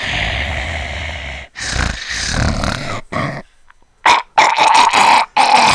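Heavy, rasping breathing close to the ear, with several long noisy breaths that have a growl-like roughness. A few short, strained bursts follow, sounding like choking or gagging.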